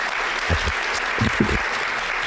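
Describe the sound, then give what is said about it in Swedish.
Audience applause for guests, a dense steady wash of clapping that holds at an even level for a couple of seconds, with a few low thumps mixed into the noise. “En varm applåd för dagens poddgäster!”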